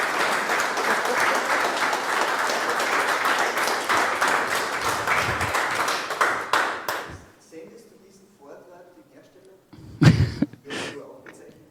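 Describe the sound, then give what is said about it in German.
Audience applause after a talk: dense, steady clapping for about seven seconds that thins out into scattered claps, followed by a voice speaking. “Also bitte nochmal eine Runde Applaus.”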